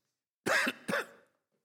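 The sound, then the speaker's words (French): Someone with a persistent tickle in the throat gives two rough, throaty coughs in quick succession. The first is slightly longer and the second is shorter, then silence. “Excusez-moi si je tousse, j'ai toujours ce chat dans la gorge.”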